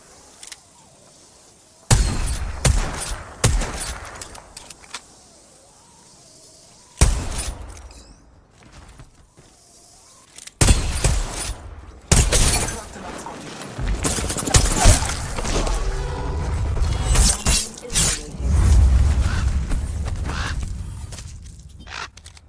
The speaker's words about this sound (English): I'm taking fire.